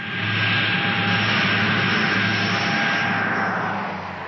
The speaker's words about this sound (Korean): 전용 비행기 안.